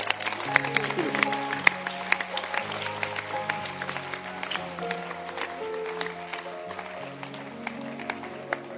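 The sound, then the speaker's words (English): Congregation applause at a church meeting, a crackle of many claps running under a voice that keeps speaking throughout. “Can you clap for Bishop Dagi Mills?”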